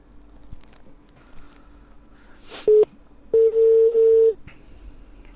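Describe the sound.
Keypad tones ring out as a telephone number is dialed: one short beep, then a longer run of rapid, closely joined beeps. They are loud over faint background noise, with no talk.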